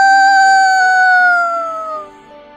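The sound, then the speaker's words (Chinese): A rooster crows in one long, loud, drawn-out call with clear harmonic tones. The pitch sinks slowly as it fades at the end. “鸡就叫了。”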